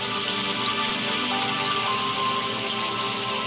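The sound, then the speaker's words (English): Steady rain patters and hisses continuously, with faint music carrying soft theta tones blended underneath, alone and without talk. “Now what you hear is music, raindrops, but if you listen real carefully, there's theta tones working in there.”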